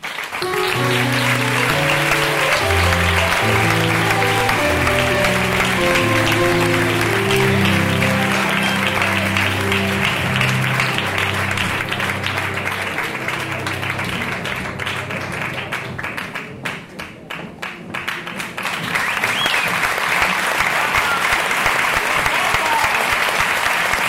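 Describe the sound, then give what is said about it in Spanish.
An audience at a film festival's opening gala applauds as an actress is welcomed: loud, dense, continuous clapping from many hands, with tonal music beneath that dips briefly before the applause swells again. “Recibamos con un fuerte aplauso a la actriz Macarena Gómez”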